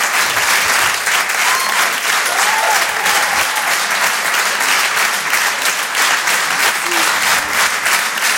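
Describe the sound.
An audience in a comedy club applauds a comedian with sustained, dense clapping throughout, while a few brief whoops or voices rise over it.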